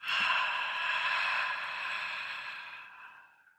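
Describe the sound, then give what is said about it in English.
A long, exaggerated yogic exhale with an open breathy hiss. It is fairly faint, holds steady, then tapers away to silence. “So take in, long, deep inhale. Exhale with the exaggerated yoga he if you would.”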